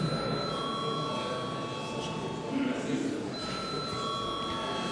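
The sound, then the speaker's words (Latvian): Electric bell rung to call members to a vote in the Latvian parliament chamber; a steady, continuous ringing tone that holds for the whole clip at low volume. “Lūdzu zvanu.”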